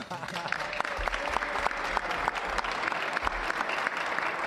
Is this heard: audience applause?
yes